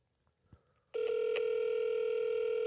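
A telephone rings on an outgoing call, a loud, steady electronic ringback tone that starts after about a second of near silence with faint clicks and continues unbroken to the end.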